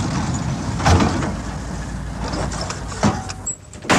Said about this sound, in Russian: Он увидел, как на дороге затормозил лагерный газик.